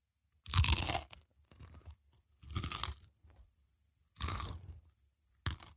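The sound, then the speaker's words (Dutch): Nacho chips being broken and crunched right at the microphone: a few loud, crisp crunching bursts separated by pauses, with softer chewing crackles between them. “kan er iemand even lekker een eh, stukje nacho doorbreken dan? Je hebt een schaal naast je staan.”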